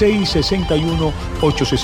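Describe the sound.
A telephone rings with an incoming call on a call-in help line, repeated ringing tones mixed in under voices.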